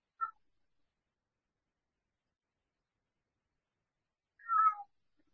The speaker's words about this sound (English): If you heard a meowing in the background.